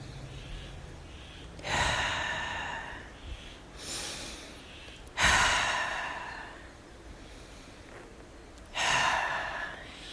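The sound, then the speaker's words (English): Three deep breaths taken during a guided heart-centred meditation. Each is a loud, airy rush that swells quickly and trails off slowly, spaced a few seconds apart with softer breathing in between and no talk. “So let's start by taking three deep breaths right into the center of your beautiful heart.”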